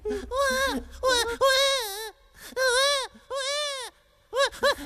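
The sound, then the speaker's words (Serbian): An older man in a top hat, lying on the grass, imitates a newborn baby's crying with a series of high, wavering wails, broken by short pauses. “Gospodine, odmah prestanite da plačete i ustanite sa trave.”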